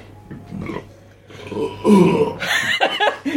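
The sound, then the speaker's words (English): A loud belch, a rough, low, growling burst that swells and holds for over a second before trailing off in a few uneven gulps. “your tremendous belching, sir?”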